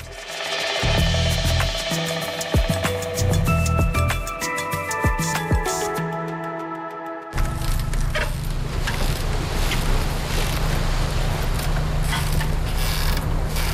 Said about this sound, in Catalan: I això que sentim és el so de les barques amarrades i el vent al Baix Empordà, concretament a l'Estartit.